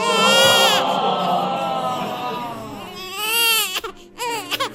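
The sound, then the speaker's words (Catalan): A voice imitates the crying of a posh newborn girl: a loud, sustained high wail, then a fresh rising cry that breaks into short, choppy sobs near the end. “Aquest plor no el fem servir gaire sovint. No. Perquè ja és de pija. És plor de pija.”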